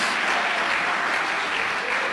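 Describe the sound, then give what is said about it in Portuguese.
Congregation applause at an evangelical worship service, with hands clapped hard in praise. A dense, loud wash of handclaps stays steady and even for the whole clip, and no single voice stands out. “As palmas de glória a Deus. O aleluia são bem fortes.”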